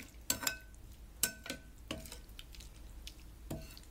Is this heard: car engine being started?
no